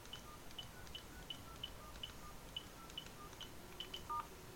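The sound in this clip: Faint telephone keypad tones sound as a PIN is entered to reach a mobile phone voicemail box. Many short, evenly spaced beeps are heard over a quiet background, ending in a slightly longer, louder tone.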